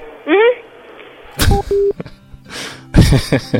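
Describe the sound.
Touch-tone telephone dialing as a call to a manager is placed: a few short electronic beeps at different pitches, interspersed with other brief clicks and bursts.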